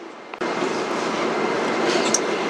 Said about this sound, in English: Please get ready for your arrival。 分钟四站到了， We are arriving at 分钟四 station。